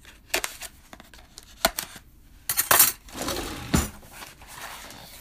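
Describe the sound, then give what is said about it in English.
Packing tape being cut on a shipping package: a few sharp, crackly snips and ripping bursts spaced irregularly, with quiet rustling between them and no talk. “So let's just cut the tape. It's just got regular tape on it. And, oops, I guess we have to cut all the tape.”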